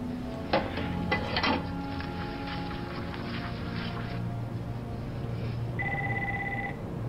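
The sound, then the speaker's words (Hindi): A telephone rings during a call to someone's home: a few sharp clicks come first, then a single bright electronic ring near the end. It is moderately loud over a steady low background hum. “Phone करने में क्या हर्ज है, उसको चैन से नहीं रहने दो। जाओ उसके घर फोन करो।”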